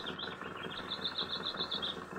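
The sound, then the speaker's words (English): A flock of gulls flying and crying: a quick, evenly spaced string of many short, high calls, faint over a soft low background rumble. “Aye, there are more birds than usual, and daring too. One or two gulls came so close to my head this afternoon”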